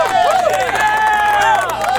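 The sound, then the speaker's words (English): Enthusiastic audience cheering sound effect, a dense, sustained wash of many voices whooping and shouting with wavering pitch, loud from start to finish. “Oh, man, that audience is very enthusiastic.”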